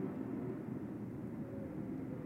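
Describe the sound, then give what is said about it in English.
A stealth bomber flying overhead gives a low, steady droning rumble that holds an even loudness throughout, with no voices. “there's a stealth bomber flying by right now. I just looked out the window. Wow. Can you hear that?”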